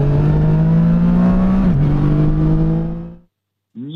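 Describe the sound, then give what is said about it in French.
An inline three-cylinder 847 cc, 115-horsepower motorcycle engine revs in a loud, steady, harmonic drone that dips slightly midway, then cuts off abruptly. A brief separate sound follows after a short silence. “847 cm3 précisément pour ce 3 cylindres en ligne de 115 chevaux, assez souple en bas et avec une belle allonge en haut. Et puis, vous l'avez entendu, il y a cette sonorité si particulière qui nous accompagne.”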